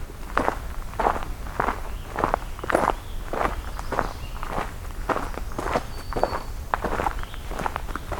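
Footsteps crunch along a forestry road in the woods at a steady walking pace. Many evenly spaced steps, moderately loud, continue throughout with no talking.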